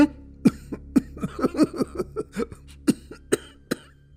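An old man coughs at length: a long, irregular run of many harsh, throaty coughs, some in quick clusters and others spaced apart, heard alone without speech.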